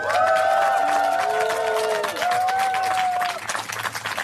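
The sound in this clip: A festival crowd cheers live at the Rudolstadt-Festival, a steady wash of clapping beneath high whistles and shouted cheers that fades toward the end.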